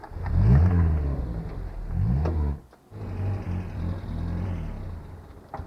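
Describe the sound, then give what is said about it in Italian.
A car engine revs as the car is driven across a garage forecourt toward the diesel pump. The engine surges twice in throaty bursts, dips to near silence briefly, then settles into a steadier, lower hum. “Porti la macchina dall'altra parte, vicino alla pompa del gasolio.”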